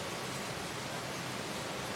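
Heavy rain pouring during a thunderstorm in Singapore, a dense, steady hiss with no breaks.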